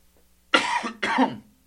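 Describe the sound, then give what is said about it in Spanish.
Two harsh coughs close together from a person with a sore throat. They are heard alone, with no talk. “ando un poco mal de la garganta, así que si me desaparezco para toser o sufrir, discúlpenme un segundo.”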